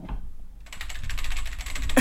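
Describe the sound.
Typing on a loud, clacking computer keyboard: after a brief quiet start, a dense, steady patter of many rapid keystrokes continues to the end.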